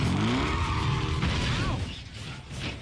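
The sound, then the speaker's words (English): A car's clutch pushed in and the gearstick popped into first, a brief mechanical clunk and rattle over a low engine rumble, fading slightly after about two seconds. “Okay, now if I just push in the clutch and pop it into first.”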